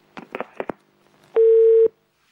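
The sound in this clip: A telephone tone sounds as another caller connects to a call-in line: a single steady, mid-pitched tone lasting about half a second, preceded by a few brief clicking bursts.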